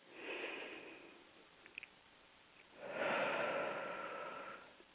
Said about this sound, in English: I take five deep breaths because five is the number of change.